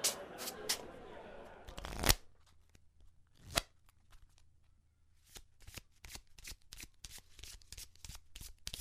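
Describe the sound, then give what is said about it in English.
Playing cards shuffled during a card game: a short rustling flurry opens, followed by many crisp snapping clicks in an irregular rhythm. The sound is faint overall, with no talking. “How long are we going to keep playing cards?”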